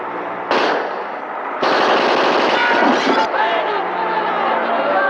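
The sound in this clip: Gunfire in a shootout: loud, dense bursts of rapid shots that start abruptly and come in successive volleys, mixed with people shouting.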